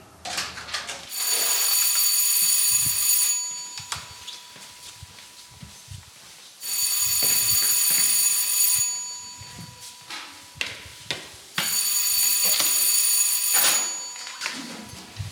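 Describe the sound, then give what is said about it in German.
Three long bursts of an electric theatre bell, the third signal before a show, each a loud, bright, rattling ring lasting a couple of seconds, with short quiet gaps between them. “Das war das dritte Tonzeichen.”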